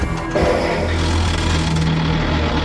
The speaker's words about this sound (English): Introducing a world first, electronic hill start control, which enables the Toyota Land Cruiser to climb from a standing start at 42 degrees.